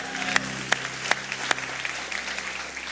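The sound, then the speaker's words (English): Congregation applauding at a church service: a steady wash of clapping runs throughout, with a few sharper, louder claps standing out. “Can you make some noise for Jesus one more time?”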